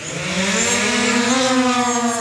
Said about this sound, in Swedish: Piloten Axel Brantsegg skickar iväg drönaren med ett knapptryck och följer färden på datorskärmen med hjälp av karta och drönarens kamera